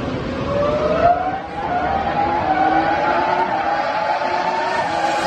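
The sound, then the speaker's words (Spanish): Engine of a Renault R25 Formula One car, a continuous high-pitched whine that climbs gradually in pitch over several seconds. “Escuchamos el ruido del motor del R25, ¿no?”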